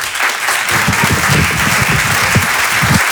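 Loud applause from a stand-up comedy audience welcoming a comedian onto the stage; dense, sustained clapping from many people that stays strong for about three seconds.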